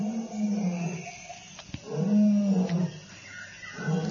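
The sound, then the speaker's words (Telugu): A lion roaring in pain, giving low, drawn-out groaning roars that swell and fade a few times, fairly faint and alone. “అప్పుడే ఆ సింహం చేసే గర్జనలు బాధ వినిపించింది ఆండ్రోక్లిస్కి”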